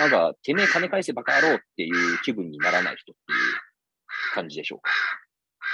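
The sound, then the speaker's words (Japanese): Crows caw repeatedly in harsh bursts nearby outdoors while a person talks steadily over them. “今これアウトドアな感じなところなので、 めっちゃカラスが鳴いてますね。”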